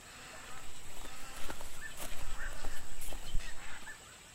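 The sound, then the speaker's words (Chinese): A flock of egrets takes flight from a riverbank, with honking bird calls rising repeatedly over a steady, dense rushing background. “娘，那些飞走的是什么鸟呀？ 那个呀，那是白鹭。 哦，那就是白鹭呀。”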